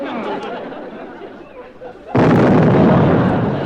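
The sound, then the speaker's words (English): A tank being blown up: a sudden loud explosion bursts in about two seconds in and swells into a sustained broad roar that lasts to the end, after quieter rumbling noise with indistinct chatter. “You blew up that tank.”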